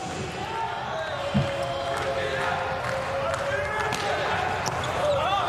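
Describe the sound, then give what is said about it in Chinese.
A volleyball serve by an attacking player is struck once in a match, a single dull hit under a commentator's voice and steady crowd noise. “二十号主攻贝拉姆的发球”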